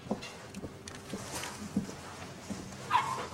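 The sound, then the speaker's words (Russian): Soft whimpers and a few short yips come from a large fluffy dog lying on an exam couch while vets examine it at the vet's. The sounds are quiet and scattered over low background noise. “Ветеринары в светло-голубых халатах осматривают большую пушистую собаку на кушетке.”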